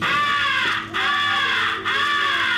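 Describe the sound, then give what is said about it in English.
Imitated crow distress call, the come-here call, sounded on a crow call through cupped hands: three long, harsh, loud caws with a slightly drooping pitch, each separated by a brief break. “First is the come here call, which is used to attract the attention of distant crows. It is a call of a crow in distress.”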